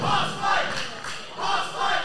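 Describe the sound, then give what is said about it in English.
A wrestling audience chants "Hoss fight" during a match between two big, hard-hitting wrestlers, a loud, rhythmic crowd chant of repeated two-beat shouts that swells and dips in waves. “Audience saying, Hoss fight.”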